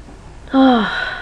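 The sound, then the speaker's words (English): A person's yawn: one voiced, moan-like breath that starts suddenly, falls in pitch and then trails off more quietly. No words are spoken. “Yes, I just yawned, I admit.”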